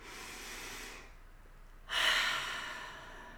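A slow, deep breath taken during a guided eyes-closed visualization: two soft, airy breath sounds with a short quiet gap between them, the second louder and fuller before slowly fading, with no talking.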